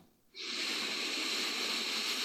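A slow, deep inhale during a guided relaxation exercise: after a quiet start, a loud, airy, breathy hiss rises sharply and holds steady for about two seconds.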